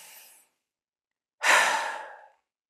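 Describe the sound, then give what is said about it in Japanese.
A single deep breath taken during a guided meditation and energy-clearing exercise: a brief airy tail, a pause, then one long, full, breathy exhale that slowly fades, with no talking. “肉体もオーラもこの光で満ちたなって感じられたら、一回深呼吸します。”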